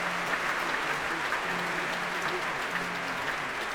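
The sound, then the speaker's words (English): Dense, steady applause and cheering from a concert audience welcoming the leader of the Simón Bolívar Symphony Orchestra onto the stage, an even, unbroken roar throughout. “Those cheers are the promos welcoming on stage the leader of the Simón Bolívar Symphony Orchestra, Alejandro Carreño.”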